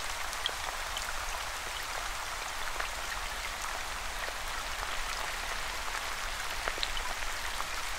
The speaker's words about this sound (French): Au bruit distinct que les gouttes forment en s'écrasant.